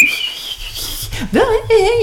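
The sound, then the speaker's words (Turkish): A person whistles a tune, a clear, high tone that holds steady and then bends through wavering, sliding pitches, mixed with voices talking. “yani bayağı bildiğin klarnet gibi kullananlar var ıslık”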